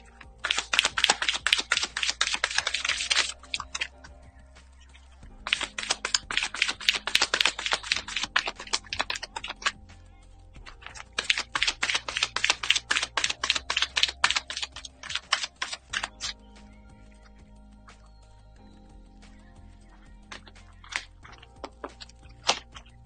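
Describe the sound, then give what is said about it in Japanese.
Oracle cards being shuffled and drawn: three long bursts of dense, crisp riffling clicks separated by short pauses, followed by a sparser stretch of occasional card snaps and taps, with no voices. “それではね、今日のオラクルカードを引いていきましょう。”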